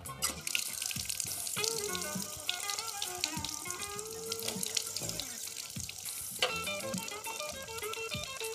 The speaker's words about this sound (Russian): Идет с чашкой в ванную, на ходу набирает в рот воды. Включает свет. Полощет рот.